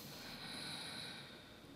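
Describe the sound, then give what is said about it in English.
A deep inhale drawn into the lower abdomen during a breathing exercise: a faint, steady, airy rush of breath lasting under two seconds, heard alone. “you have to inflate your lower abdomen, not chest. Okay. Mm-hmm. So let's try one more time. Okay. Okay. One inhale.”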